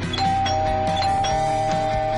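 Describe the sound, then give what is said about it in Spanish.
A doorbell rings with a steady sustained tone that holds through the whole clip over a busy rhythmic background; no speech. “Timbre, hace un ruido de timbre.”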